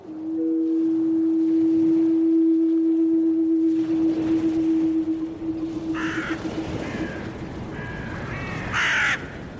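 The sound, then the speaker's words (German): Ravens give a few harsh caws in short bursts late in the sequence, following a long, steady droning tone that fills the first part. “Rabenvögel begleiten den Menschen seit Anbeginn.”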